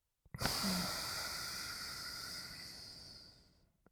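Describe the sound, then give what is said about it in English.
A single long, airy breath drawn through one nostril in a breathing exercise. A soft hiss rises quickly, holds steady for about three seconds, then tapers off into quiet. “and we press down on our left nostril. We do the same thing with the right nostril. Breathe in with the right nostril. and breathe out.”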